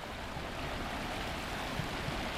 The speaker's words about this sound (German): Grüß Gott, ich bin die Isar. Der schöne und meistens grüne Fluss, der durch München fließt.